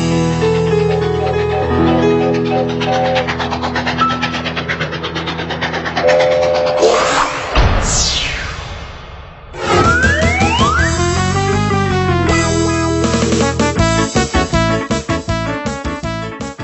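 A train rings its bell amid loud, rhythmic clatter, with sliding whistle-like tones rising and falling midway. The sound continues steadily throughout, with no talk.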